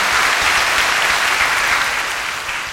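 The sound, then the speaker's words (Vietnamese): Audience applause at a 2016 singing festival as the crowd thanks the judging panel. Dense, steady clapping fills the whole clip at a loud, even level, easing slightly toward the end. “Một lần nữa xin một tràng pháo tay thật lớn để cảm ơn sự đóng góp của ban giám khảo.”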